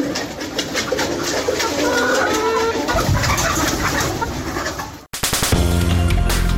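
Domestic chickens kept in homes for eggs and meat in Uruzgan province, southern Afghanistan, give a steady stream of soft clucks and cooing calls, which stop with an abrupt cut to a different sound near the end.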